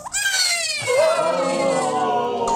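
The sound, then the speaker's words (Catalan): A newborn baby cries in one long, shrill, wavering wail that rises sharply and then settles into a sustained, strained tone, loud and alone. “El protagonista d'aquesta història acaba de néixer i el seu plor sona així.”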